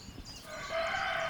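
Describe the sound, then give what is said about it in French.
A rooster crows once, a faint, drawn-out call that rises from steady background noise midway and holds to the end, with no voices. “Un coq qui a plusieurs poules, ben il chante.”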